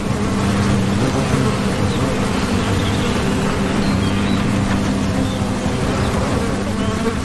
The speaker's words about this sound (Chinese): 枯树洞是胡蜂建造纸质蜂巢的理想之选。